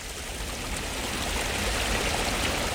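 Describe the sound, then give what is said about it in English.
A stream about 300 metres long flows through a swampside garden with pools, giving a steady, unbroken rushing of water that holds at an even level from start to finish. “And now we're coming to the first bridge, which doesn't have high sides on it at all, but affords us a little bit of a look at the stream here”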